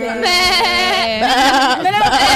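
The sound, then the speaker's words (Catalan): A voice imitates a sheep bleating during an animal-sound guessing game, one long tremulous bleat with a wavering, nasal pitch that holds steady and loud for about two seconds. “No, això és la cabra, no? No, l'ovella.”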